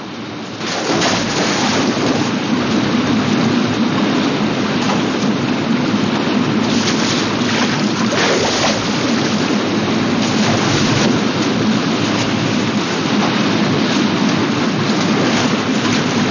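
Roaring river white water churns loudly and continuously as a canoe is paddled through the rapids, a dense, unbroken rushing surge with no pauses.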